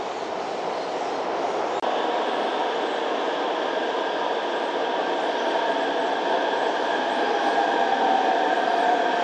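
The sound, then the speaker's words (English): A Beijing subway train arriving at the terminal station of its line, a steady, loud rumble with sustained whining motor tones throughout and a single sharp click near the start. “终点站昌平西山口站到了，请携带好随身物品，按顺序下车。感谢您选择北京地铁出行”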